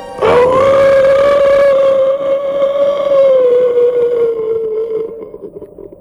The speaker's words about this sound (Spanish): Y aullé.